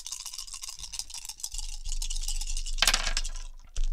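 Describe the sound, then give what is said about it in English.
Dice are rolled for an attack with a machine pistol in a tabletop role-playing game, making many small clicks and rattles that clatter together. A sharper burst of tumbling dice comes near the end. “Okay, so I'm going to roll to attack that guy with my machine pistol.”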